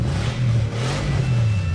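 The engine of a new zero-kilometre car revs in a steady, faint low drone with slight swells, heard alone without voices.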